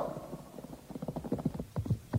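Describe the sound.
Horse hooves clip-clop as a loose group of about fifteen staff officers rides fine, well-groomed horses. The clopping is faint and uneven, with overlapping hoofbeats in an irregular walking rhythm.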